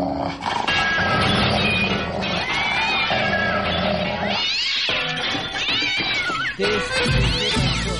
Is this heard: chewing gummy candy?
no